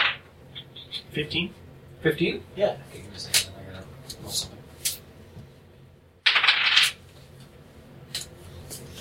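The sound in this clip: Dice clatter in a Pathfinder tabletop game as a perception check is rolled: scattered light clicks and taps, then one louder rattling burst near the end, with murmured voices underneath.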